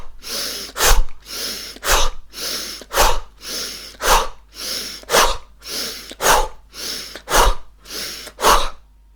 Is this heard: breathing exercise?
yes